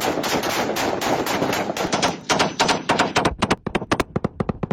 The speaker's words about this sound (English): Another unverified video appears to show the Taliban firing at bodies strewn across the ground.